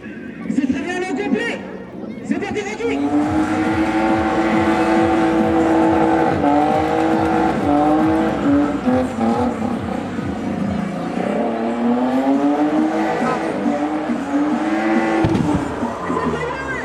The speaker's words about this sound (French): quand il tourne, ouais, c'est les cailloux, c'est les gravillons. Avec les pneus.